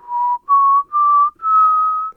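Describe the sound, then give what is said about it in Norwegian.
A man whistles four sustained, clear notes with short breaks between them. Each note sits a little higher than the one before, and the last note is the longest. “Så begynner han å plystre og se opp mot stjernene.”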